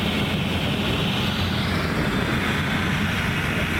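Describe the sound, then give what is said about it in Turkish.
A firefighting helicopter fills its Bambi bucket with water while fighting a wildfire, giving a loud, steady droning roar of engine and rotor that fills the whole stretch. “Şu anda da bir helikopter yine Bambi'sine suyunu aldı ve yangınlarla mücadele”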